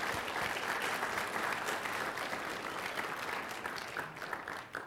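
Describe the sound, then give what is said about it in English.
A church audience applauds to welcome a newly baptized member, a dense, steady patter of clapping hands that holds for several seconds and eases slightly at the end. “Riley Tucker was baptized. Y'all give her a big hand and welcome.”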